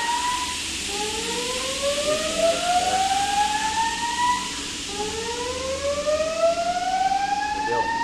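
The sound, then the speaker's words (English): A fire alarm siren sounds during a fire inspection test, a loud wailing tone that sweeps steadily upward in pitch in two long rising cycles, with no voices over it. “Okay, and that sound means... Oh, is that a test? You're currently in the middle of fire inspection, yes.”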